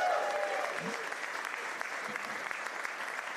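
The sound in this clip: Audience applause welcoming two rugby guests onto a live rugby show: dense, even clapping that holds steady across the whole short stretch.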